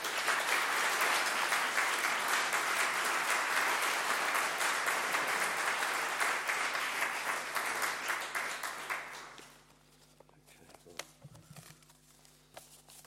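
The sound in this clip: Dense, steady applause from an audience welcoming a councillor to a lecture in Warfield, holding loud for about nine seconds, then dropping away to a few faint scattered noises.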